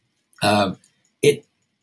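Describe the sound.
Throat clearing from a throat dried out by hot weather: two short, raspy vocal bursts, the first longer and fuller, the second brief, with silence around them.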